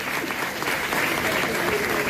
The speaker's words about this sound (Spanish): Así que eso sí que merece un buen aplauso. Todo el mundo aplaudir a los cocineros.